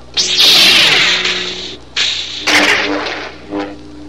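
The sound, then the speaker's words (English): Lightsaber strokes deflect blaster bolts fired by a hovering training remote. Loud, sharp whooshing swishes come in a few bursts, with one long sweep at the start, then shorter, separate swings. “the remote target makes another pass. Luke deflects the bolts with swift strokes of the saber.”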